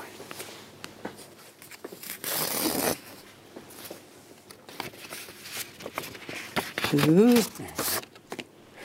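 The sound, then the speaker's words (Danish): A small envelope is opened on stage during a live Top 100 finale show. There is a short burst of paper rustling and tearing, with people talking and moving around it. “En lille kuvert her, ja. Som jeg gerne vil have, du skal åbne.”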